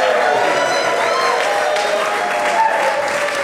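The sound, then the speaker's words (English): Live audience applauding and cheering on a rainy day before a music performance, a dense, continuous wash of clapping mixed with crowd voices, loud and steady throughout. “I just want to get a little shout out from the audience here to everyone listening.”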